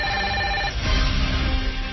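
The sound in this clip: An outgoing telephone call rings on the line, a steady electronic ring tone for the first moments that gives way to a noisier, rougher line sound, with no one speaking.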